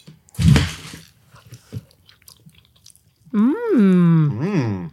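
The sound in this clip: Chewing on a bite of a fluffy egg bite: a brief squishy bite, then a few soft chewing clicks, followed by a voice letting out a drawn-out, rising and falling appreciative hum.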